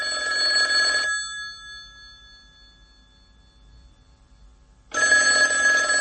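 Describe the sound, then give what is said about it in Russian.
A telephone bell rings in two bright, metallic bursts of about a second each, separated by several seconds of near silence. “Последний, третий звонок раздался за несколько минут до 9 часов вечера в следующий понедельник.”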